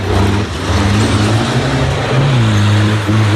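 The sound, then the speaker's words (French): Engine noise at an event in Haute-Vienne: a loud, continuous low rumbling drone with strong harmonics that shifts slightly in pitch partway through, with no voices. “c'est un bruit de moteur, vous l'avez compris”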